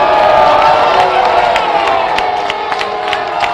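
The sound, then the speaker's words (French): Hockey crowd on its feet booing the referee after a disputed goal: a loud, sustained roar of many voices, with scattered sharp accents cutting through the din. “Ils sont tous debout en furie contre l'officiel. On entend les huées.”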